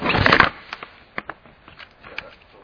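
A microphone is lifted off a book that served as its stand, making a loud burst of rustling handling noise. Several faint knocks and clicks follow as it settles.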